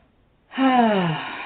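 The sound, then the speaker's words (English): A deep, conscious breath is let out as an audible voiced sigh, a single tone falling in pitch that lasts about a second after silence. “just take that conscious breath”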